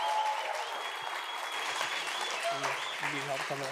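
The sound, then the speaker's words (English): A church audience claps steadily and warmly to welcome a guest pastor on a Sunday morning. The dense applause continues throughout, and voices rise over it toward the end. “church, would you do me a favor, put your hands together and welcome my friend, Pastor Don Castleberry, this morning.”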